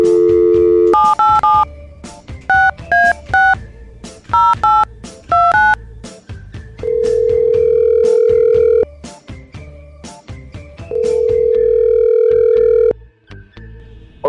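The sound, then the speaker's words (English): A telephone call being dialed: a steady tone, then many short dual-tone keypad beeps in quick groups, followed by two long, loud ringing tones. “Let's give Sean a call.”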